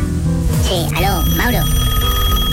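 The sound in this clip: A telephone ringing as a Medellín radio morning show calls a listener, a short run of warbling, trilling electronic tones that bend up and down over a steady musical background, then give way to the continuing bed.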